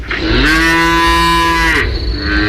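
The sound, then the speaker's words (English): Cattle on a farm: one long, loud cow moo, a low, rich, steady call lasting about a second and a half, with a constant low background noise before and after it. “I'm on a farm.”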